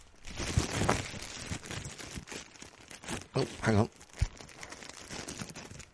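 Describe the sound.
A paper envelope is opened at an awards announcement, with crinkling and tearing paper rustles and a few sharper crunches under ongoing talk.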